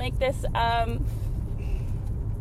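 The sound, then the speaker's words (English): Low, steady road rumble from inside a moving car, with brief voice-like sounds over it near the start. “I'm in the car and I'm driving”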